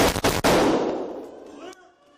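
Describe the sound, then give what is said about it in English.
A police officer fires a gunshot upstairs in the Nashville school attack footage: sharp bangs that hit hard at once, then a long, noisy decay that fades out. “They hear gunfire upstairs and head to intercept. As he rounds the corner, one of the officers spots the attacker and takes the shot.”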